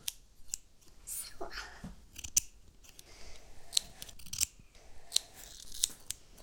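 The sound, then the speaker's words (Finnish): Scissors cut in a series of crisp, sharp snips at an uneven rhythm, each a short bright click, with quiet gaps between the cuts. “Nyt men leikan. Jaha, du ska klippa nu. Med saxen.”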